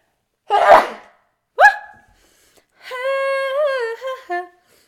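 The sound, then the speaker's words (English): A single sharp, breathy sneeze bursts out alone, followed by a brief second burst and then a drawn-out, high, wavering voiced sound. “Oh my God, I'm gonna sneeze. And it's a podcast, so I can't cut it out.”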